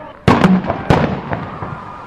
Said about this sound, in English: The police also entered the fray and fired a stun grenade at the students.